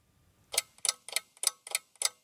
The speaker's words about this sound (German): Ich stehe vor einer turmartigen mechanischen Holzuhr.